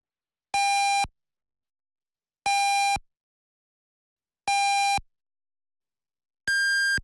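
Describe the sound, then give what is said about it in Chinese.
A radio time signal marks the hour of 23:00 Beijing time with four short electronic pips spaced about two seconds apart. The first three share one pitch and the fourth sounds higher, each one clean against silence. “安徽经济广播主持人梁瑞为您报时，现在是北京时间23点整。”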